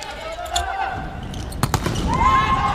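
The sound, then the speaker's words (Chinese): A volleyball serve in a match against the Philippines team makes brief, sharp ball impacts under a commentator's steady talk. “老雷继续来发球”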